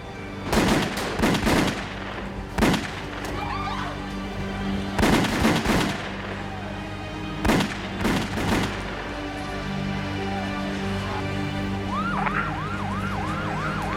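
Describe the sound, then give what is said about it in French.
Gunfire as men step out of a car outside a Manhattan restaurant in a mob hit: several loud bursts of shots in separate volleys, then steadier noise and a warbling siren near the end. “Au moment où ils sortaient de la voiture, des hommes s'approchèrent d'eux et firent feu.”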